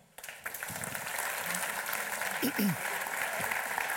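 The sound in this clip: An audience applauds to welcome a filmmaker onto the stage, the clapping starting abruptly just after the beginning and holding as a steady, even wash to the end.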